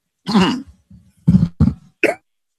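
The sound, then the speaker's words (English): A person clears their throat with a longer rasping burst, then gives a few short, sharp coughs separated by brief quiet gaps. “Excuse me. Got a little frog in the throat.”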